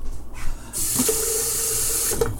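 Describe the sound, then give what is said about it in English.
Water runs from a kitchen sink tap while tea is being made, a steady bright gushing hiss lasting about one and a half seconds after a few soft handling sounds, then stopping with a faint clunk. “Actually, I should not be using tap water because the tap water has tons of shite in it.”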